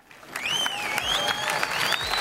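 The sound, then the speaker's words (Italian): Arena audience applause at an evening show in the Arena Santa Giuliana in Perugia. A dense, steady wash of clapping carries several rising and falling whistles above it. “E solitamente l'Arena risponde con un applauso che condividiamo con voi, pubblico di Radio Monte Carlo.”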